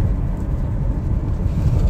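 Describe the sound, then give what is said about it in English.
A car being driven fast in a race gives a steady, loud, low engine rumble that holds evenly throughout. “Why are you driving so fast? Relax. Okay, you want to race?”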